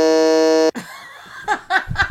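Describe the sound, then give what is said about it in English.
A loud, harsh electronic buzzer sounds once as a flat, rasping tone for under a second and stops abruptly. Faint voices and laughter follow. “Why you beeping me?”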